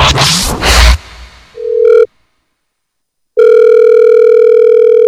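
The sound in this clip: A telephone tone sounds on a radio studio line after a noisy whoosh. A short tone is followed by a brief silence, then a loud, steady, unbroken tone.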